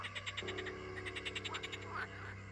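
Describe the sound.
Many frogs croak in a graveyard at night, a faint, steady stream of rapid rhythmic pulses with a low drone underneath and no voices.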